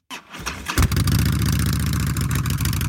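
Harley-Davidson motorcycle engine firing up with a short burst, then settling into a loud, steady, throbbing rumble with deep pulsing low tones that holds to the end.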